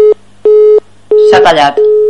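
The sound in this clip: Busy signal on a telephone line after a call cuts off during connection problems: a steady mid-pitched tone in evenly spaced bursts, four in all with the first clipped, while a voice talks over the third burst.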